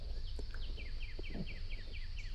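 Birds chirping as a calm meditation backdrop: many short, high chirps repeat in a quick, steady rhythm over a constant soft hiss, with no voices.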